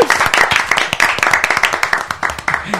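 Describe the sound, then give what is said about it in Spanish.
Audience applause carried by quick, regular hand claps, loud and steady, with many sharp claps running evenly through the whole stretch. “El aplauso, chicos. El aplauso.”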